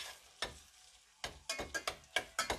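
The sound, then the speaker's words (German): Merguez sausage fries in plenty of oil with onion and garlic as the base for a chickpea soup, giving a steady sizzle broken by many sharp stirring scrapes that come quicker toward the end. “Zwiebel, Knoblauch andünsten lassen. Dann geben wir hier die Wurst dazu. Und die braten wir auch mit an.”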